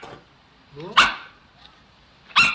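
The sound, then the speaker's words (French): A dog barking, played back on a small speaker during an animal-sound guessing game for children and elderly residents: two sharp barks separated by a pause, with a brief yelp just before the first. “C'est le chien. Et le chien, il aboie.”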